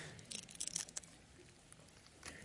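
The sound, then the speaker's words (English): Crinkly plastic tearing as the top seal is peeled back from a communion cup: a short, faint burst of crackling and ripping, then a softer rustle. “then we're going to move right into communion if you want to peel back that top layer, because it's so noisy, is it not?”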